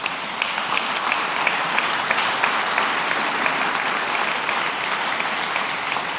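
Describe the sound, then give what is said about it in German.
An audience applauds during a speech on inclusive schooling, with dense, even clapping that holds at a steady level for the full stretch and no voices on top. “Die dürfen klatschen.”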